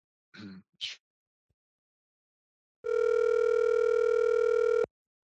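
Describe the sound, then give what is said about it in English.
A telephone line gives a single steady, buzzing tone that holds level for about two seconds and then cuts off. Two brief breathy vocal sounds come earlier, followed by a short silence. “Should we give him a call and see if he'll answer?”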